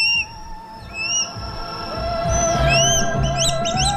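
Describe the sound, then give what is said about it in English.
High, thin whistled calls of a swallow-tailed kite, several clear notes with upward inflections, followed by a quicker run of short chirping whistles near the end, set over a low background murmur. “The swallow-tailed kite. Today's Talkin' Birds featured feathered friend.”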